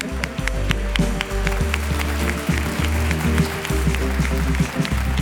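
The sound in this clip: A studio audience applauds at the start of a show, with dense, steady clapping that runs without pause and low sustained tones underneath.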